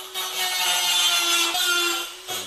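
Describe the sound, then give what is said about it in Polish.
A small dental-style rotary tool smooths a surface during finishing work in hard-to-reach spots. It gives a steady, high-pitched whine with gritty hiss that runs continuously, then cuts off just before the end. “To jest takie narzędzie bardziej dentystyczne. Świetne do obróbki jakichś takich trudno dostępnych miejsc, gdzie zwykła szlifierka oscylacyjna nie da rady dojść.”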